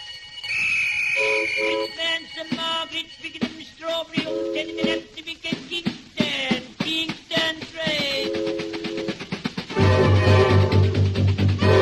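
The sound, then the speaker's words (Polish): A drummer imitates a locomotive starting up at the opening of a band performance: rapid percussive hits mix with whistle-like toots and sustained horn tones, building in density into a loud, steady ending. “Perkusista na początku naśladuje startującą lokomotywę.”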